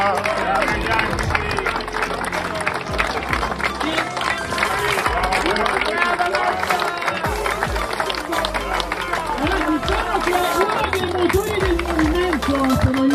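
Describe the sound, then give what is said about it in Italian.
A crowd applauds to thank the helpers at a sports awards gathering. Dense, steady clapping with cheering continues without a break, and voices carry over it throughout. “vogliamo ringraziargli un applauso, perché senza di loro non potevamo più fare.”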